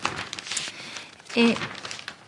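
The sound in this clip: Pages of the newspaper La Stampa rustle and crinkle as they are turned, a continuous dry papery swish with a louder crumpling burst partway through and a brief voiced sound.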